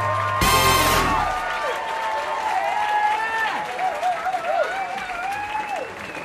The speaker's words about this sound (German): Einen großen Applaus für Sebastian Hering.